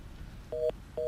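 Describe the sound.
Telephone line tones after a dropped call: two short, steady, mid-pitched beeps over low background hiss, the second beep cut off at the end.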